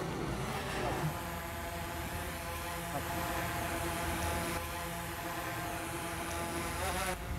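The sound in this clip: A small drone descending to land during a home inspection, giving off a continuous, even buzzing hum with layered harmonic tones. The steady whirr stays at a fairly low level throughout without breaks.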